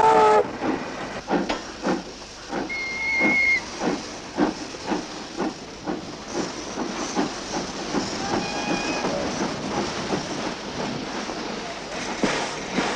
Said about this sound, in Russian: ЖД станция Инская, половина третьего дня.